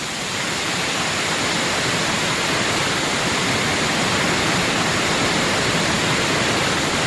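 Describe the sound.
Waterfall swollen by heavy, abundant rains roars as a loud, steady, unbroken rush of falling water, with no pauses or other sounds.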